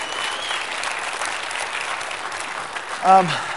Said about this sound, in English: So if we could, let's give our leadership a hand.